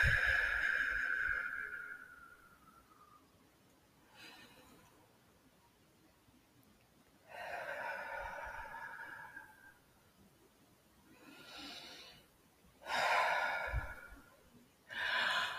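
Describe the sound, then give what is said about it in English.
Slow, deep breaths during a guided abundance meditation: a few long, soft inhales and sighing exhales separated by quiet pauses, with no talking. “Three deep breaths on that one.”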